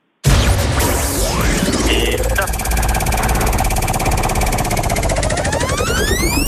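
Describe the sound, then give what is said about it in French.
A game show prize wheel is spun, starting abruptly and loud, then rapid continuous ticking beneath dense whooshing effects, with rising sweeping tones toward the end. “Donc je vous propose de lancer la roue quand vous voulez. Vous nous dites stop et à nouveau stop quand vous voulez l'arrêter. Ça vous va? Ok. Allez. Bon, mais je la lance.”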